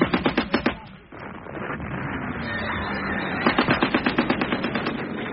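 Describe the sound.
Machine gun fire in two rapid bursts of sharp, evenly spaced shots, one at the start and a longer one at the end, with a dense, noisy rumble between them.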